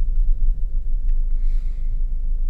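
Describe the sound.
Low, steady engine rumble from a car pulling up and parking, a continuous droning hum with faint higher hiss above it and no clear stop or voices.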